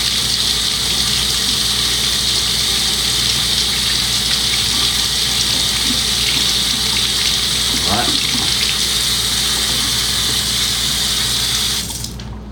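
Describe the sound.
Tap water runs steadily while a spoon used for stirring creamer is washed, a continuous rushing hiss of even loudness that cuts off just before the end.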